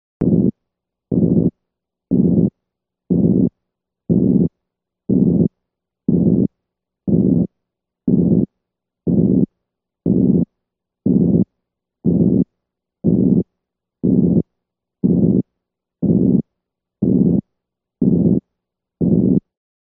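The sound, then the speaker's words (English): A plateau, or regurgitant-quality, heart murmur: a long, regular train of low, rumbling bursts. Each burst holds an even, flat loudness for about half a second, then stops abruptly before the next, with silence in between. “This is the sound of a plateau, or regurgitant quality murmur.”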